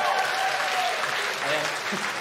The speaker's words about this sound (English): That is one of the best things about it as well. It, almost just by mentioning it, you pretty much guaranteed a round of applause.